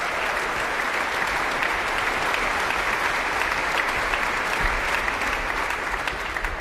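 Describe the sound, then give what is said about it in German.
Enthusiastic applause from a concert audience as the ensemble returns to the stage at the end of the evening, a dense, even wash of many hands clapping that stays loud and steady throughout, with no voices. “Das Ensemble hat gerade noch einmal die Bühne betreten und nimmt den begeisterten Applaus des Publikums entgegen.”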